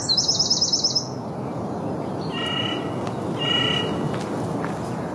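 Song thrush singing: a quick run of repeated high, bright notes opens, then two separate, richer whistled phrases follow over a steady hiss of background noise.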